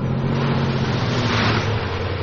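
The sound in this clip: A truck engine pulls away, a low, steady rumble with a humming drone beneath broad road noise, holding an even loudness throughout with no voices.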